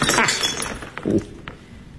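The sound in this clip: A drinking glass shatters with a loud, bright crash at the start, then a few lighter clinks and tinkles of pieces settling as the sound fades.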